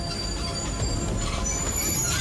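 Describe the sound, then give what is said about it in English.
Train wheels squeal as the train pulls into a junction platform and stops. High, thin screeching tones run over a steady low rumble for the whole clip. “The train stops and passengers disembark.”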